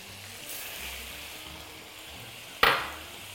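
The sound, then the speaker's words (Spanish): Rice stirred and fried in oil in a pan gives a faint, steady sizzle, then one sharp clack of a utensil against the pan near the end that quickly fades. “Removemos. Lo cocinamos un poquito antes de echarle caldo. Es como si friéramos un poquito el arroz en el aceite que tenemos aquí”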